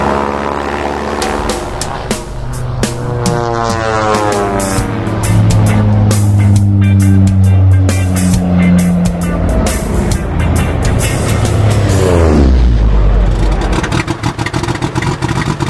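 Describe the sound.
A propeller aircraft engine runs with a loud, continuous, buzzing drone. Its pitch climbs early as it revs up, holds steady, then drops sharply near the end before carrying on.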